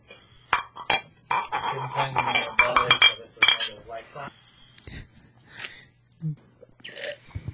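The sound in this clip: Glasses or cans clink together in a toast, with a few sharp bright clinks and taps scattered through overlapping talk.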